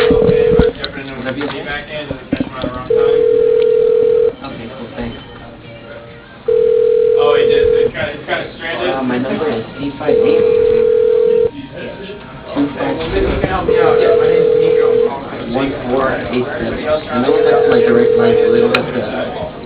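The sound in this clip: Ringback tone of an outgoing telephone call, heard as six evenly spaced steady tones, each lasting over a second, repeating at a regular rhythm under continuous talking.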